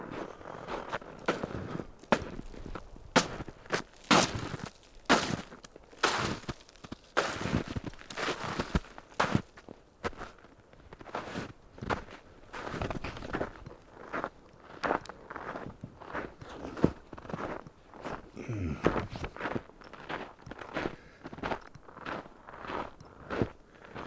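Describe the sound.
Footsteps on an outdoor walking path: many crunching, scraping steps in an uneven rhythm, fairly faint and heard alone.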